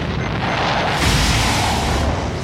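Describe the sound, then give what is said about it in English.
Missiles launching in a film action scene: a loud, sustained roaring blast of dense noise that swells midway and holds strong to the end, with no talk. “And at that moment, the missiles launch.”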